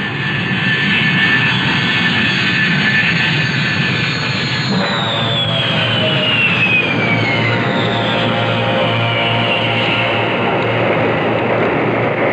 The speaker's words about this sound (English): Be advised you are now cleared for takeoff.